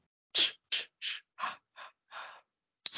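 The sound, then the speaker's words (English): Sips of beer followed by contented sighs: a series of short, breathy bursts of similar loudness, about seven in all, with a louder one at the end and no talk. “Beer. It's the sound of American freedom.”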